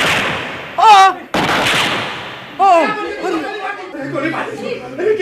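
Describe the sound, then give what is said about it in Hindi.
A sharp gunshot cracks out in a courtroom amid raised voices, followed by loud, agitated crowd chatter and shouting as people react. “अरे ये क्या, ये गोली किसने चलाई?”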